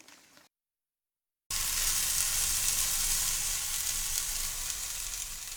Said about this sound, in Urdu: ایک تجویز یہ ہے کہ اسے نان سٹک فرائنگ پین میں پکا لیا جائے۔